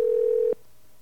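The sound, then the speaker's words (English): A telephone tone sounds as a call rings through to a cell phone: one steady, clear electronic tone lasts about half a second, then cuts off abruptly and leaves a faint line hum. “we are now hopefully ringing Ron on his cell phone someplace.”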